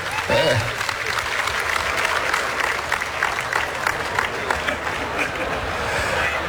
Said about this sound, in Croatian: Evo, molim vas, dočekajmo ga pljeskom, prvi dobitnik večeri.